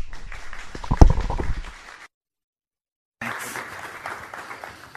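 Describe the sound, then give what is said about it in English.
Congregation applause welcomes a pastor at a church service: a crackling burst of hand clapping with a sharp peak, a sudden gap of silence, then the clapping resumes at a steady level. “So please put your hands together and join me in welcoming Pastor Danny.”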